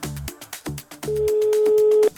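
Ring tone of an outgoing telephone call: one steady mid-pitched tone lasting about a second, following a few sharp rhythmic thumps.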